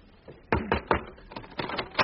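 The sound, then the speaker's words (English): Knocking on a door: sharp hollow raps in two quick clusters, a steady run of three followed by a second run of several more, fairly crisp and moderate in loudness. “I'll knock at the door.”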